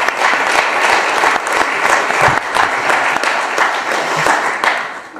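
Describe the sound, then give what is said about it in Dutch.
Audience applause at a council meeting: dense, steady clapping that fills the whole clip at a loud, even level with no break. “Jij mag alvast applaudisseren natuurlijk.”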